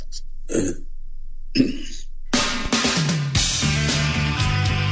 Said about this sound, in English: play the snort just to play the snort. Just trying to get the snort.